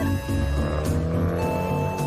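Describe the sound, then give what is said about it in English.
Rusty hatchback with a smoking muffler pulling away from the roadside: a continuous, rough engine rumble with tire noise that stays loud and steady throughout. “His rusty hatchback pulls away from the side of the road and his muffler puffs out smoke.”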